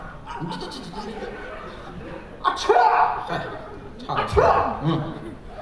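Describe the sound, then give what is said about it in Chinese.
A voice imitates a sneeze the way Chinese people sneeze, with two loud, abrupt bursts amid chuckling and talk. “中国人打喷嚏这样打”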